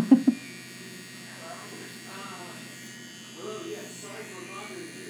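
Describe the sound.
A rotary tattoo machine buzzes as a steady, soft, low hum under faint talk, after two brief knocks at the very start.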